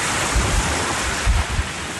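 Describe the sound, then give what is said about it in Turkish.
Storm wind and waves roar on the coast at Erdek, Balıkesir, during a heavy downpour: a dense, loud, continuous rush with a few low surges swelling through it, and no voices. “yağmur ve fırtınanın etkisini izleyebilirsiniz. Sağanak su baskınlarına yol açtı. Fırtına ağaçları devirdi, tekneler karaya oturdu.”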